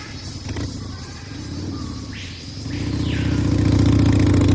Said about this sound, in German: Im Dschungel Motorrad zu fahren ist nicht leicht.